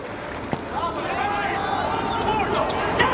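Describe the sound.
One sharp ball strike from a volleyball serve that scores an ace in a match involving Slovenia, followed by commentators talking over a background crowd.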